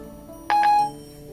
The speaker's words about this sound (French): La petite musique qu'on entend derrière, c'est que je viens de recevoir le message.